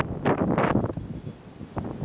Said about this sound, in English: It's really pretty here. I wish it wasn't so dang windy so that I could enjoy the walk more.